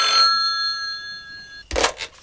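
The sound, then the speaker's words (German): A telephone rings with a bright, steady tone for under two seconds, then stops abruptly. A few short, sharp clattering noises follow. “Da klingelte das Telefon.”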